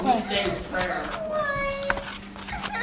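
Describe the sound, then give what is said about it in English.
A cat lets out a drawn-out meow, its tone bending up and then down, heard under people talking. “That's the cat.”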